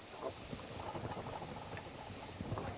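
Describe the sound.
Food sautéing in a pan, a faint continuous sizzle with fine crackles throughout and no voices.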